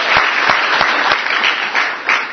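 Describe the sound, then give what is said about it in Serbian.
A large audience applauding for participants from across Serbia at a competition ceremony, with a steady, loud, even wash of clapping and no voices. “molim vas još jedan aplauz za njih”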